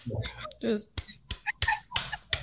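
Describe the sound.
A reverse clap being demonstrated: a few sharp, dry claps at irregular intervals, mixed with nearby talking.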